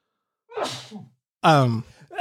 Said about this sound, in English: I sneezed